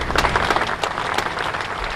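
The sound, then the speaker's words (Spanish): Crowd applause closing a minute of silence at a vigil in Bilbao condemning the killing of a 13-year-old girl: continuous, moderate clapping with a diffuse, rushing texture and a few sharper claps standing out. “Son los aplausos con los que acaba de terminar el minuto de silencio en la concentración en Bilbao”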